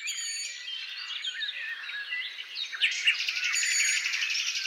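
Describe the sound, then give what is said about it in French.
Woodland undergrowth soundscape alive with birdsong: many quick, high chirps and trills overlap in a steady, fairly soft stream with no voices. “on va vous offrir donc là ce paysage sonore de sous-bois, ça nous fait du bien”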